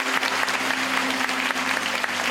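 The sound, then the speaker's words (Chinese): Audience applause at a talk, clapping to encourage a young daughter brought forward: dense, steady clapping from a crowd, even in loudness and unbroken from start to finish. “来，你们掌声鼓励一下”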